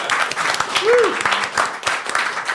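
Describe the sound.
Applause rolls in for a musical guest on a talk show, a steady, full wash of clapping lasting the whole time, with a few voices rising over it.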